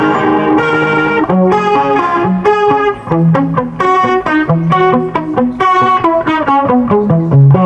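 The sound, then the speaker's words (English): Electric guitar runs through a fat analog effects pedal with overdrive, playing a steady melodic line of many picked notes and short chords. The tone is loud, thick and gritty, with no talking. “It's just a fat analog thing. And a lot of the ones I've used sound great, but when you put overdrive, they don't sound that good.”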